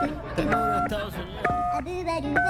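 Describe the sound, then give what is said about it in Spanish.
Telephone keypad tones as a United States number is dialed to call the president, a few short steady beeps in separate bursts, mixed with ongoing talk. “Le voy a marcar de inmediato, amigo. Vamos a marcarle de inmediato al presidente. Número de Estados Unidos.”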